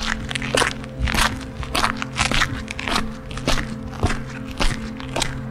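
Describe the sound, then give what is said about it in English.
Footsteps crunch over gravel on a garden path, a steady rhythm of many crisp, gritty steps over a low, constant hum. “You walk over gravel.”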